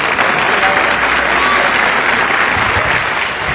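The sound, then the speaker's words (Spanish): An audience applauds during a church service: loud, dense clapping that stays steady and continuous from start to finish. “Un aplauso para el Señor.”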